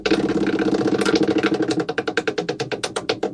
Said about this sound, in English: All right, let's spin tonight's wheel.